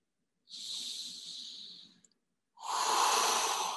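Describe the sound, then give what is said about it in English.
Deep breathing into the stomach during a breathing exercise: a long, airy hissing breath lasting over a second, a brief pause, then a second, louder and fuller rushing breath. “So 5 breaths to your stomach, yeah? So expand.”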